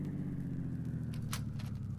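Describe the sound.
A car driving through a run-down Chicago neighborhood, its engine a steady, low rumble that continues throughout with faint ticking noise above it.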